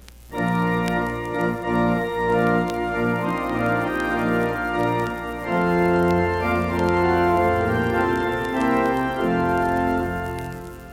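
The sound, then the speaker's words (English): Church organ playing a hymn with breaths inserted: sustained full chords move phrase by phrase, with short gaps between phrases where the sound drops away briefly before the next chord enters. “Now hear it with breaths inserted.”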